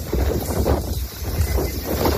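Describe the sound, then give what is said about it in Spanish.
Strong wind from storm Denise in Murcia, Spain, buffets the microphone in a continuous loud, roaring rumble, with gusts swelling and easing and no voices. “Así ha estado soplando, por ejemplo, en Murcia, una de las comunidades que sigue hoy en alerta por viento.”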